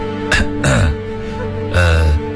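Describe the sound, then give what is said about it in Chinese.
Throaty coughs cleared twice to catch someone's attention: three short, voiced bursts, the first two close together and the third after a pause, fairly loud, with no talk around them. “沈提奇又站到剑门身边，咳嗽两声引起对方的注意”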